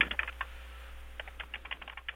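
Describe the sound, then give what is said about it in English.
Someone types notes on a computer keyboard with faint keystrokes: a short cluster, a brief pause, then a quicker run of taps. “I'm just typing all this down. I don't have a tape recorder at the moment, so I'm just having to type it all out.”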